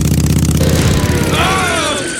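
Engine revving hard on a makeshift carburettor built from a tomato can, a throbbing mechanical drone whose harmonics climb in pitch partway through as the throttle opens, loud throughout.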